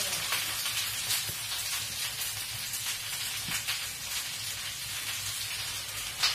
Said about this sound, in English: So, just shaking the pan around to distribute the veg.